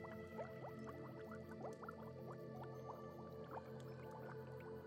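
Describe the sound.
Frankincense oil drips into a liquid, making many small, quick plinks and wet drip sounds over a steady liquid wash throughout, with no talking.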